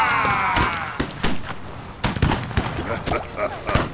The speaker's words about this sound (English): It appeared the small caliber pistols had no effect.